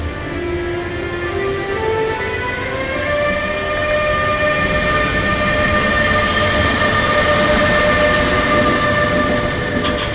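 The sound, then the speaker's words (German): A train locomotive pulls away from a standstill, its whining tones stepping upward in pitch one after another over a dense, steady rumble that grows slightly louder. “Aber jetzt eine Art wissenschaftliche Abhandlung über diese Geräusche beim Anfahren von Zügen. Beim Anfahren der Lokomotive aus dem Stillstand ist ein Geräusch zu vernehmen,”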